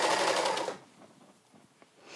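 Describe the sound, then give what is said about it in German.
A sewing machine neatens fabric edges together while sewing boxer shorts. A fast, steady mechanical whir runs loud for under a second, then drops to a faint, ticking hum. “so, habe ich jetzt hier das richtige Füßchen? Ja, habe ich. So. Also die einfach jetzt zusammen versäubern.”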